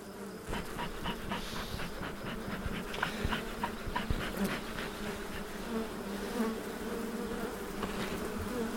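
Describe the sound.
Honeybees buzzing at their beehives in a continuous, many-layered drone with a gently fluctuating loudness and scattered small ticks and bumps. No one talks.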